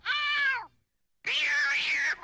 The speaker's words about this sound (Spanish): Se acercó al gato por la espalda. Lo agarró por el cuello y...